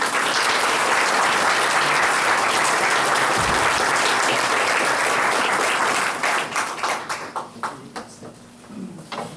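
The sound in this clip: An audience applauds to welcome a speaker, a dense, loud wash of clapping for several seconds that then thins into scattered individual claps and fades.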